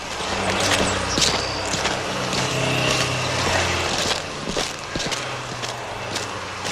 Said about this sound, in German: Wir gehen mal um das Gebäude herum.